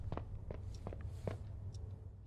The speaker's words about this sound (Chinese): 你们有没有觉得我的脚步声听着太近了？就感觉像小碎步，不像一个成年男子在走路。我受伤了吧？应该是，所以走路脚步声听着这么诡异。